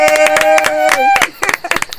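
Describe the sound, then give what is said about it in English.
A group claps for themselves in a celebratory meeting. Many quick, sharp claps are heard under a sustained voiced cheer and other voices. “No, we clap for ourselves.”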